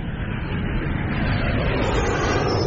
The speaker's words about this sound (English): turn the thrusters to maximum speed on a bearing Q23 stroke J80.